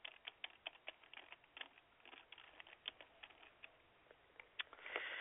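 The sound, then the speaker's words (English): Faint typing of a Google search on a computer keyboard: many quick, light key clicks in an uneven rhythm, with a slightly louder flurry at the end. “All right, so I just typed in Super Bowl 49 and predictions for Super Bowl 49.”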